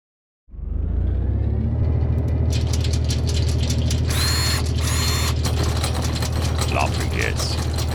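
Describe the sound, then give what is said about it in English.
A random number generator machine starts abruptly and runs with loud, steady mechanical whirring and rapid ratcheting clatter. A few brief higher whines sound over the rattle. “So, I will now run the random number generator.”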